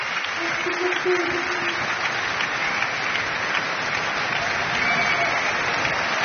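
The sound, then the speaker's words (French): A standing ovation from the Marseille audience: dense, sustained clapping at an even level throughout, with a faint voice briefly audible beneath it. “Et le public marseillais attentif, en fait, qui fait maintenant une standing ovation.”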